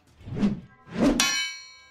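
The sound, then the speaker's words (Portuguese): A sword clang sound effect: two soft whooshing swipes lead into a bright metallic clang that rings on with a sustained, shimmering tone as it fades. “depois dessa pequena quebra com o barulhinho de espada que eu pedi para o editor incluir”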